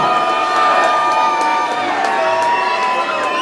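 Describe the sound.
A Halloween all-dayer party crowd cheers and shouts for a costume contestant in a crowd-judged contest. Many voices whoop in a loud, steady roar with slight swells.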